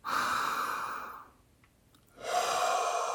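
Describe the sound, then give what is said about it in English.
A deep breath during a guided relaxation breathing exercise: a long, loud, airy rush of breath, then a stretch of near silence before another breath starts. “So we're going to inhale and exhale. And with each exhale, just let a little bit more of that go and relax your body as we go. So we're going to inhale”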